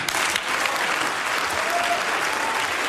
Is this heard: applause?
yes